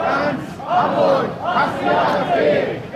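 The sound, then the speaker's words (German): Crowd of about 1,500 protesters at a demonstration against the AfD in Hamburg, a dense mass of many voices shouting and chanting in loud, swelling waves that rise and fall steadily throughout. “Laut Polizei haben hier 1.500 Menschen demonstriert.”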